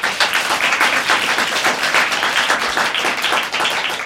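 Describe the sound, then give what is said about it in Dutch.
Audience applause at a live festival event: dense, steady clapping from a crowd that continues without a break for about four seconds. “Ik vind het ook heel leuk dat jullie even applaudisseren voor mm. degene die uh, een verhaal vertellen.”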